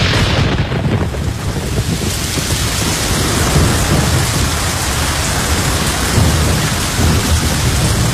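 Heavy rain pours down in a thunderstorm over a moor, a steady, loud hiss of downpour with deep thunder rolling beneath it throughout and no voices.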